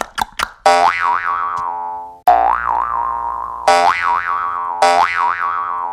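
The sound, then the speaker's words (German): Bouncy boing sound effects for hopping, played on a jaw harp: four long, loud twangs, each with a wobbling, wavering pitch, after a few quick short plucks. “Ich hüpf dann mal durchs Studio und du machst den passenden Sound dazu”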